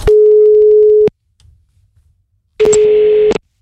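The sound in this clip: A telephone ringback tone sounds while a call is placed: a steady, low, continuous tone lasting about a second, then a pause, then a second shorter burst of the same tone mixed with other brighter sounds.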